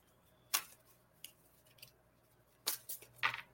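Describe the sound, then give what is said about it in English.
An oracle card being drawn from a deck during a card reading: a few sharp, papery snaps and rustles spread across the moment, with no voices. “I guess I can pull a card for Kim. All right. Let's see.”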